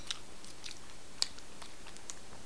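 Someone chews cornflakes, giving faint, crisp crunches scattered irregularly with no talking.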